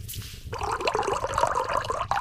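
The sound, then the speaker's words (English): Hot water poured into a mug with cocoa powder: after a brief quiet start, a steady, bubbling gurgle of liquid runs continuously for nearly two seconds. “I have a cocoa packet and some hot water right here. I'll just add them together in a mug.”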